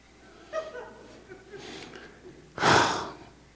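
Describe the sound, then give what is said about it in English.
Deep breathing in and out: a soft, breathy intake, then one loud, long, rushing exhale near the end, following a few faint, brief breathy sounds. “Just breathe, breathe, breathe. Then let it out, let it out.”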